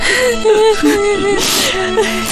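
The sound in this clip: A child whimpers and cries in shaky, wavering high-pitched sobs, with breathy catches and a burst of noisy breath between the cries.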